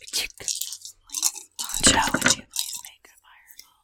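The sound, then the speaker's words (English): Whispered, breathy mouth sounds imitate a fireball spell being cast, coming as a few short hissing, crunchy bursts with a longer, louder swell in the middle before fading off. “Now I'm going to cast a fireball spell.”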